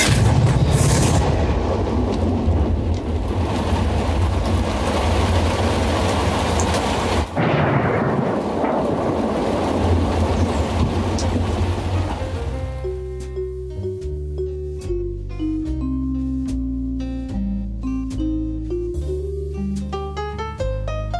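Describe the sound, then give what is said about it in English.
Trailer audio for Identity, a 2003 neo-noir slasher film: deep rolling thunder and rain rumble through the first half, then give way to sparse, ringing tonal music with distinct notes carrying on to the end. “Alright guys, that was the trailer for Identity. Identity is a 2003 American neo-noir slasher film.”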